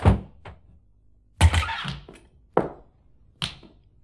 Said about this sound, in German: Ein kurzes Zögern, ein harter Schlag, die Tür wurde mit einer Krücke aufgestoßen.